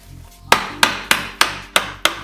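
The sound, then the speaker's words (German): Sharp wooden knocks from striking a knife down along the wood grain while carving. Six crisp blows land at a steady, slightly uneven rhythm, each with a quick decay, and no one speaks. “Die Fasern des Holzes verlaufen in diese Richtung und wir schnitzen so entlang nach unten.”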